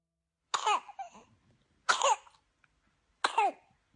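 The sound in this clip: Baby coughing from whooping cough, heard as three separate harsh, high-pitched coughing bursts spaced evenly apart with short wheezy tails, each followed by silence.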